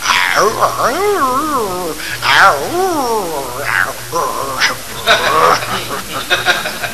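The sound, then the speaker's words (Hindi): A man's voice imitating a household dog in the morning as part of a mimicry act. It makes a few wavering, bark-like yelps and whines with a bending pitch, produced vocally with no other sounds. “ये मौलिक item mimicry का मैं प्रस्तुत कर रहा हूँ, सुनिए साहब। पहले सुबह का वक्त मेरे घर का कुत्ता”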